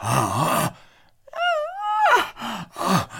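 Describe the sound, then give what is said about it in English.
A bull gives whining, moaning check bugles: a nasal whine that climbs and then bends downward, set between rougher groaning moans before and after, with short gaps between the calls. “Again, those whines, those moans, check bugles.”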